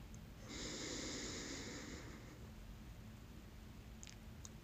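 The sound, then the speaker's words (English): A slow, deep breath drawn in during a guided meditation breathing exercise, a soft airy hiss lasting about two seconds, faint and alone with no talk. “let's just come together and take a deep breath before this episode starts. So breathe in with me.”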